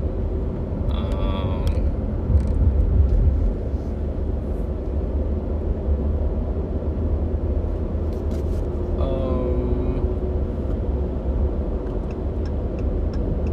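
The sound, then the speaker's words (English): Steady low road rumble inside a moving car, a continuous dense drone that holds at an even level throughout with faint creaks over it. “I'm trying to think and drive, which is never good.”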